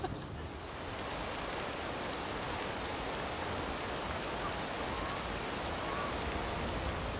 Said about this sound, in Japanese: わだくら公園のシンボル、噴水の音が聞こえてきます。